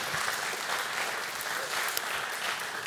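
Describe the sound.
Applause from an audience welcoming a speaker to the front at a church Bible-teaching gathering: steady, dense clapping that holds at an even level for the whole stretch, with no voices.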